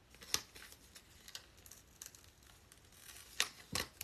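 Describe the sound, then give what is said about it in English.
A price sticker is peeled off a product with a faint, crinkly tearing sound and a few louder sharp rips. “I'm trying to peel this off, y'all, and see what this is giving.”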